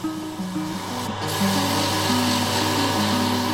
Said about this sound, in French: Là, il est tourné. Un coup de ponçage.